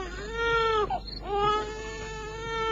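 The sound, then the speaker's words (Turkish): A swaddled, hungry infant cries in two loud, sustained, high-pitched wails separated by a brief catching break, with no other voices. “Bu çocuğun annesi öldü. Açlıktan ağlıyor. Çok acıktı yavrucak.”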